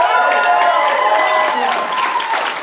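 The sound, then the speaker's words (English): Applause and crowd noise from an audience at an expo stage show, a dense steady wash of clapping with voices and cheering mixed in, holding at a loud level throughout. “you guys gave yourselves a round of applause to everybody who came up here on the stage.”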